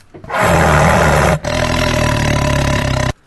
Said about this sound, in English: So here's the sound of a real tiger.